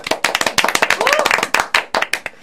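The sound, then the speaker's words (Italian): Audience applause, dense rhythmic clapping of many hands in quick, loud bursts, with a brief voice rising through it. “a loro scatta l'applauso”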